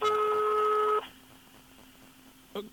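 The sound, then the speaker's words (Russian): An electronic telephone tone sounds as someone places an urgent call: a steady, buzzy tone holds for about a second, then cuts to a faint hum, followed by one short beep near the end. “надо Михе срочно позвонить”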